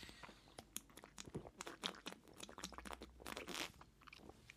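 Drinking to soothe a dry throat, heard as a busy, irregular run of small crackles and gulping noises with uneven loudness throughout, no talking.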